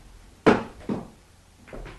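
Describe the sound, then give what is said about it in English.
A door being opened, giving a sharp wooden clunk followed by two softer knocks or thuds, all brief and fairly quiet against a faint background hiss. “All right, I'll get the door.”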